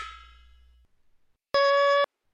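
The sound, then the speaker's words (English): A metal shield dropped on the ground gives a bright metallic clang that rings and fades away. A short, steady, tone-like sound follows after a brief pause. “Oh no! Captain America dropped his shield, and a tank is coming.”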